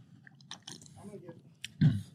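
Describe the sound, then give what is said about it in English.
Chewing of a mojito-flavoured gummy candy: a few faint, soft, sticky mouth clicks, then a louder squishy chew near the end. “It tastes like a gummy bear. This tastes like gummy bears.”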